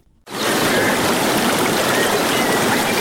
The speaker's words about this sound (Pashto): دا د هغه بایدونکو اوبو شور دی چې د غزنی ښار په منځ کې تیریږي.